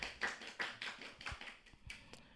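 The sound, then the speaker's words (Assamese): Quiet, sparse clapping from a small audience for the teams after a music quiz. The hand claps are uneven and scattered, with distinct separate slaps rather than a steady roar. “প্ৰতিটো দলকে নিজৰ বাবে এজাউৰি হাত চাপৰি বজাবলৈ জনোৱা হ'ল।”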